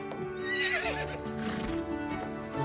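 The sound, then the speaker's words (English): A white horse harnessed to a carriage lets out a long, loud, wavering whinny, with hooves clip-clopping beneath it. “A white horse with a pink and yellow mane is harnessed to a purple carriage.”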